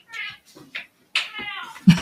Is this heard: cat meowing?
yes